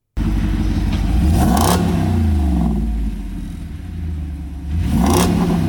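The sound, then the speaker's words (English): A truck engine revving: a deep, rumbling drone that surges into a loud rev burst early on, settles lower through the middle, then climbs into another strong rev near the end. “That's funny that your revving engine sounds like that because mine sounds like this.”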